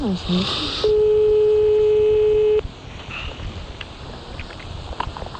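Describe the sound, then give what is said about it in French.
A telephone tone sounds while a call is dialed: one steady, unbroken tone at a single pitch holds loudly for about two seconds, then cuts off, leaving low background noise. “On appelle donc Monsieur Simbo pour les marabouts.”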